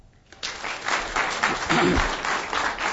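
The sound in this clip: Applause from an audience welcoming a speaker to an evening talk, a steady, full wash of many hands clapping that begins abruptly and holds at an even level.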